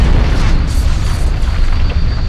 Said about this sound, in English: until they finally swelled into the silver flash of a detonating shadow bomb.